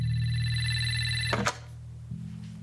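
A telephone thought to be broken rings with a steady, buzzing electronic tone. The ring is cut off by a sharp click about halfway through, and a lower hum follows.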